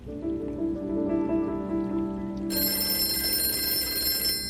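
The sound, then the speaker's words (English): A telephone bell rings as a bright, metallic trill. It enters partway through and sustains to the end over a steady tonal background. “I think that's the phone.”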